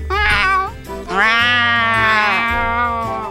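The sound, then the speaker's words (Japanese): A person imitates a cat with the voice: a short high meow, then a long, loud, drawn-out meow that swells at the start and holds steady before trailing off. “私は猫の鳴き声が得意です。 やって。”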